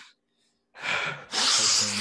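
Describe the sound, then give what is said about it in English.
A man gives a mock cocaine snort. A moment of silence is followed by two breathy, hissing nasal inhalations, the second louder and more sustained than the first. “For Spotify and Apple podcasts, he didn't actually snort cocaine. Yeah, I snorted.”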